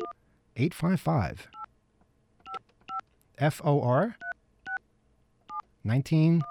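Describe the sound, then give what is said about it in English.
Touch-tone dialing beeps from an office phone system, starting with 9 for an outside line before a toll-free number. Several short, clean two-tone beeps come singly and in pairs, alternating with stretches of a man talking. “Do we have a dial tone? Okay. We have to dial 9 to get out. All right. And then we dial”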